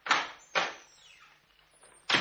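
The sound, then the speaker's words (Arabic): A door is opened in a radio drama, heard as three short, sharp thuds spread across the moment with quieter, fainter sounds between them, all fairly soft. “فتحت الباب ودخلت.”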